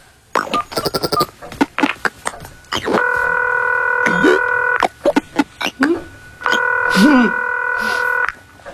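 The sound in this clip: A telephone is dialed to call someone: a quick run of short keypad beeps, then two long steady ringing tones separated by a few more brief beeps.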